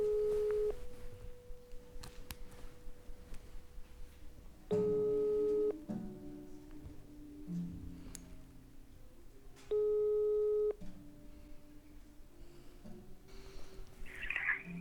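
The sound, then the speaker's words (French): A telephone rings for an incoming call as steady electronic tone bursts repeating about five seconds apart, with fainter tones in between. “j'ai un appel”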